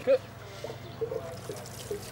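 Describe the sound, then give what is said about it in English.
Soft trickling water poured from a watering can into a balcony plant box, a faint, uneven dribble with a few small splashy bursts. “don't pick up the watering can. Okay. It's quite heavy. I'll just hold this. And just pour that way along.”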